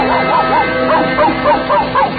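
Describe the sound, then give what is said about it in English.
A cartoon dog barks in a deep bass voice, singing a rapid, rhythmic string of short woofs. Each woof swoops up and down in pitch, loud and steady over a constant background hum. “that famous canine basso, Pluto the Pup.”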